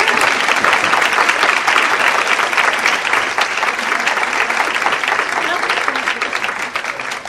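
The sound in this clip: An audience at a Christian praise and worship event gives a warm welcome to a speaker with loud, dense applause. The many overlapping claps hold steady for several seconds, then ease slightly toward the end.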